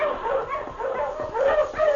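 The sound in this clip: A husky sled dog barks in short, yelping bursts mixed with higher yips and whimpering whines, repeating irregularly over two seconds.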